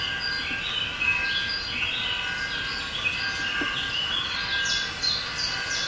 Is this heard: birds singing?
yes